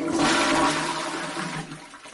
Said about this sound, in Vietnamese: Yến Hạc Thanh vặn vòi nước, xả hết đống tro tàn kia xuống cống